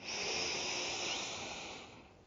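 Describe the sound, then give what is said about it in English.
One deep inhale from the belly, heard as a soft, airy hiss that swells and then fades over about two seconds, with no other sound. “just go ahead and take a deep breath in. Deep inhale from your belly.”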